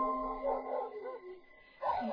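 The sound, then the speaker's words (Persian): Dogs bark and yip in two short bursts of whining, harmonic barks with a brief lull between them, fairly soft overall. “صدای پارس سگا یه لحظه هم قطع نمی شد.”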